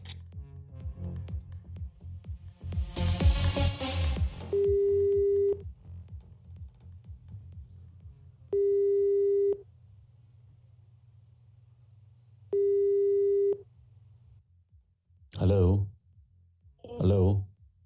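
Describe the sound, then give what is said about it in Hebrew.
A telephone call is placed and the line tone sounds three times: steady, mid-pitched tones of about a second each, separated by long pauses. Soft clicking comes first, and voices are heard at the start and near the end. “זה הזמן לחייג לבן אדם”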